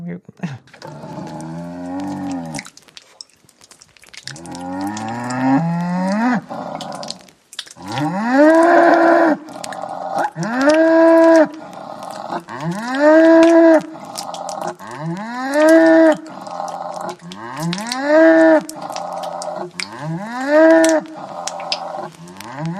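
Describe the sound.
Cow mooing in a long series of drawn-out low calls, each sweeping upward in pitch. The moos come at a steady, regular rhythm and are fairly loud, with no talk.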